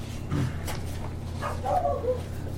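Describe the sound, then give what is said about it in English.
A dog yips and whimpers in a few short, high bursts over a steady low hum, with no clear talk. “Stop barking, dog.”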